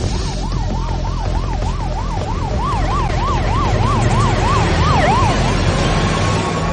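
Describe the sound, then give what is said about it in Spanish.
An ambulance siren wails in a rapid, steady up-and-down cycle, loud and continuous throughout, over a low rumble of road traffic. “La ambulancia sigue avanzando y en ese momento se cruzan con Enrique.”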